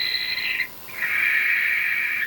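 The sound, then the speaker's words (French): Owl calls at night, from what is taken to be a frightened owl: two drawn-out, high, reedy cries, the first shorter and the second long and steady, loud above a faint hiss. “On dirait des ululements. Une bestiole qui ulule la nuit dans les airs sans que je puisse entendre ses battements d'ailes, c'est forcément une chouette effrayée.”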